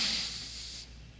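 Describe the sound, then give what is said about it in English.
One deep breath drawn in during a guided breathing exercise, a faint, airy hiss that holds steady and then stops abruptly. “Okay, ready? 3, 2, 1. Breathe in.”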